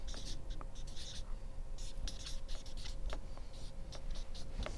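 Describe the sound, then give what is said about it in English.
Writing at the front of a room during a talk on ministry fundraising: many quick, scratchy strokes in short bursts, some squeaky, over a faint steady hum. “I hate writing up front because I get nervous, like I'm going to misspell something.”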